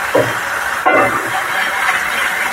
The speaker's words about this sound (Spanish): Vamos a meterlas a cocinar. Ya tenía previamente mi sartén con el aceite caliente.